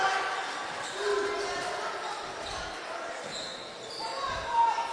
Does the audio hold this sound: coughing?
no